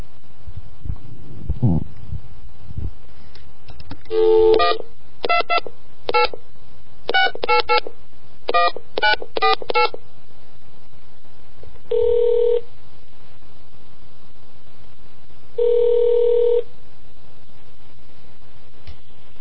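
Touch-tone keypad beeps as a number is dialed to the National Data Buoy Center's Dial a Buoy line: a quick uneven run of short tones, then two long ringing tones with a pause between them, over a faint steady hum.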